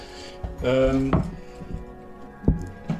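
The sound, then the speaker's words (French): A small spoon clinks in a cup while stirring in sugar, giving a few sharp, bright taps spaced apart, one ringing briefly. “Et une petite cuillère, s'il te plaît. Ouais. Je vais poser un petit bruit de cuillère sur la courbe du son.”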